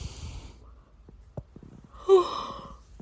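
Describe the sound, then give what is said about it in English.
A person lets out a single drawn-out, voiced yawn after a stretch of quiet with soft breaths and small mouth clicks. The yawn is faint but clearly tonal and fades gradually. “sorry, this podcast should be called the Misfit Vegan Yawns Podcast.”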